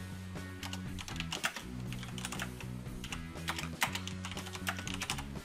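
Text being typed on a computer keyboard while editing in graphics software: a brisk, continuous run of many light keystroke clicks over a low steady hum.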